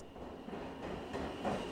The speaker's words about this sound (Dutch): Maar wij gaan er nu wel even met de metro.